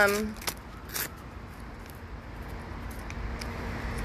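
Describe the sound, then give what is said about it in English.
Ice cream wrapper being unwrapped at the beach, brief crinkling plastic rustles in a few short bursts, with a person talking at the start and a steady low background rumble throughout. “Hold on, I'm trying to unwrap my ice cream here.”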